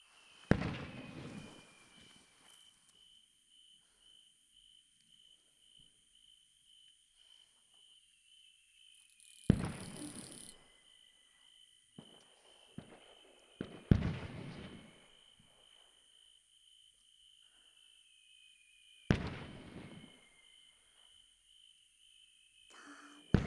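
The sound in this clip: Fireworks: several loud booming bursts spaced seconds apart, each with a crackling tail, over steady high-pitched cricket chirping. Quiet overall.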